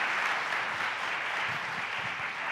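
Applause from an audience welcoming missionaries before they share about their ministry work: an even, sustained patter of many hands clapping with no voices.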